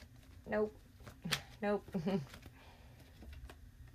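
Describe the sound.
Tarot cards being shuffled and handled in a few brief riffling bursts, broken by short murmured vocal sounds, then fading into faint, soft card rustling.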